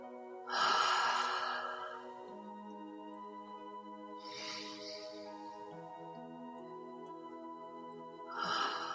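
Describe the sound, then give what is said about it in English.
Deep, long breaths with long exhales, three of them spaced several seconds apart, the last cut short. They sound soft and airy over quiet, steady sustained tones. “Close your eyes, and let's take three deep, long breaths with long exhale out.”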